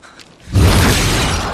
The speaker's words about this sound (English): The horntail strikes the ground, knocking Harry off his feet.